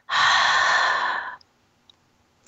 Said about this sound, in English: Take a nice inhale through your nose. Exhale it out your mouth.